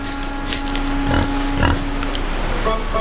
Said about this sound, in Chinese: 这两只野猪正在吃饭，